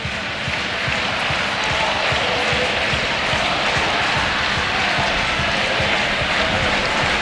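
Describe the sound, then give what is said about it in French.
Football supporters cheer and roar in a stadium during a women's match involving Barcelona, a dense, steady wall of loud crowd noise that holds at an even level for the whole stretch without clear peaks. “Oui, les supporters qui vont donner de la voix.”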